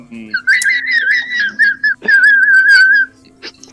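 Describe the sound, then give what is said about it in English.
Whistling in a high, wavering tone that rises and dips, played as a few long phrases with short breaks, over a steady low hum. “It sounds like a whistle!”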